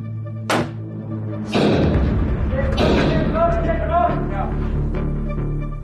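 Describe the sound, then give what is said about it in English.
Stun grenades exploding down an underground mine tunnel: a few heavy, booming blasts with long rumbling tails, mixed with shouting voices. “A SAPS member fires stun grenades down a tunnel stretching several hundred meters underground.”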